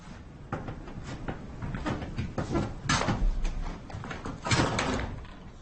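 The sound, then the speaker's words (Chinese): A door being pulled shut, heard as a few knocks and thuds with some clattering over a low background. “来了，哎，把门关上。”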